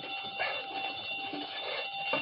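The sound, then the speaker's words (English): A burglar alarm wired to a safe rings with a steady, shrill electronic tone that never breaks, fairly faint throughout. “Safe connected with burglar alarm.”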